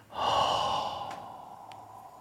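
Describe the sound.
Breath let out in one long exhale, a soft breathy rush that starts strong and gradually fades away over about two seconds, heard alone without talk.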